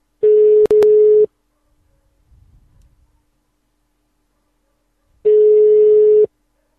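Telephone ringback tone while a caller waits for an answer: two steady, buzzy tones about a second long, separated by a long pause holding only faint low noise.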